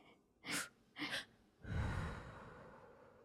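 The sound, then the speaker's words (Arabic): Breathing exercise: two quick, sharp inhalations in succession, followed by a long, forceful exhale that slowly trails off, heard alone without speech. “التنفس دلوقتي التنفس”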